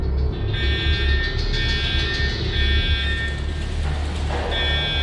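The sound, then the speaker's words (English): A klaxon alarm sounds as a harsh, continuous buzzing tone with a bright stack of overtones. It carries on throughout with brief dips, over a low rumbling background. “And that klaxon sound you heard is definitely louder out here.”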